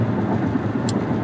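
A car being driven on the road: a steady, low engine hum blended with continuous road rumble holds evenly throughout, with no talk.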